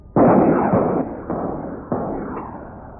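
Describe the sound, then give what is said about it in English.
A volley of military rockets is fired in a naval demonstration. A sudden loud roaring blast is followed by several more rushing bursts in quick succession, each one trailing off. “Did they all go off at once? Brother, well, we'll talk about that in just a minute. Now comes a man 2.5 years in the Navy who can tell us what happens when a rocket such as we just heard”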